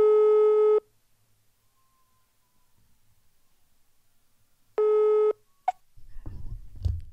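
Ringback tone of an outgoing telephone call: two long, steady buzzing tones separated by a long silent gap, followed by brief clicks and a rustling, rumbling noise as the line is picked up.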